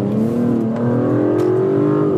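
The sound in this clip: An Aston Martin DB11's engine surges as the car accelerates to about 55 mph. The strong, continuous engine drone climbs gradually in pitch with no talk over it.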